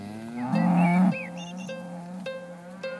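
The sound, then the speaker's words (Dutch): Cows on a farm, let outside for the first time into the sunshine, give one loud, drawn-out low moo. Fainter, lower lowing and soft rustling follow afterward. “De eerste koeien die naar buiten gaan, de zon schijnt en ze genieten van die zonnestralen.”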